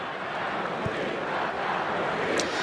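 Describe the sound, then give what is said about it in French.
Italian football supporters cheering in a stadium make a dense, steady crowd roar that stays at an even loudness throughout, with no single shout standing out. “On l'entend, hein, alors, évidemment. Il n'y a pas que des Italiens, que dans le parcage visiteur. Il y a énormément d'Italiens dans tout le stade.”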